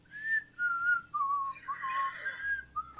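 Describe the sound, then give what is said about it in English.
A person whistles a tune: a string of clear, sustained notes stepping up and down in a simple melody, moderately loud and heard alone without talk. “Just kind of whistling a tune as everything's going on. Not saying anything.”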